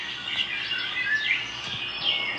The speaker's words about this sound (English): who's going to clean up after those birds, man?